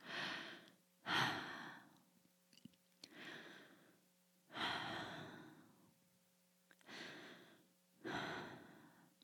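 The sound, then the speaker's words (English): Three slow, deep human breaths, each an audible airy inhale followed by a long, hissing exhale, with quiet pauses between them and no talking. “I'm hoping that 3 deep breaths and silence minus my breath here on your radio has let you feel a little calmer.”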